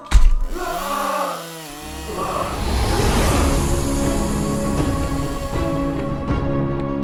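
A small saw cuts with a loud, steady buzzing motor drone that takes over after a brief opening burst and runs without a break to the end.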